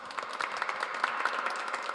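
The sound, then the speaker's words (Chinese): Applause at a church gathering, many hands clapping in a moderate, lively patter of quick overlapping claps that continues evenly throughout. “次俾掌声俾你主，”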